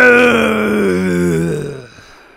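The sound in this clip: A voice imitating a monster with a loud, drawn-out growling groan that holds steady, then fades away at the end.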